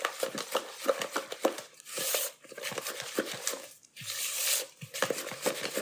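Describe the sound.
Cookie dough of butter, brown sugar, granulated sugar and egg being stirred with a rubber spatula as molasses is mixed in: many soft, sticky scrapes and squelches in an irregular rhythm, broken by a few longer scraping swipes.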